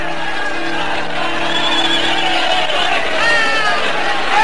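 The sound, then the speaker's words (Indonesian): Commotion of a crowd of people rushing out of a hermitage to greet new arrivals: a dense, steady bustle of many voices and movement that holds at an even loudness throughout and swells slightly toward the end. “Lihatlah itu, Kakang. Orang-orang yang berada di dalam padepokan itu berhambur keluar menyambut kedatangan kita.”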